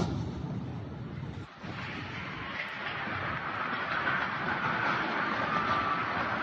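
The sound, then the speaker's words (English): Explosion from an Israeli military strike on a building in downtown Gaza. A heavy roar briefly dips, then swells into a long, loud, rumbling blast that continues to the end. “Let me go ahead and take a look at that clip here. Here we go.”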